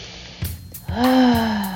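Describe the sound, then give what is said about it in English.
A deep breath drawn in during a spiritual uplift session: two soft breathy intakes, then a long voiced exhale that swells into a loud, steady sigh and slowly tapers off. “Let's raise the vibration with a deep breath.”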